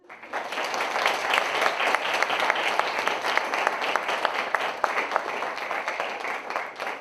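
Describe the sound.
Audience applause welcomes a professor before a philosophy lecture, a steady, dense patter of many hands clapping that runs evenly for several seconds with no voices over it.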